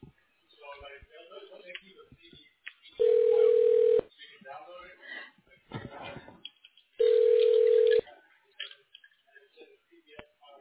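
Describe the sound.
Telephone keypad tones select options in an automated phone menu: two steady one-second beeps over a narrow phone line, with a recorded voice speaking before, between and after them.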